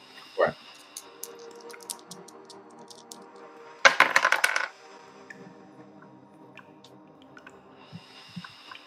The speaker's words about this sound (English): So if you want to roll 2d6 plus your intelligence bonus.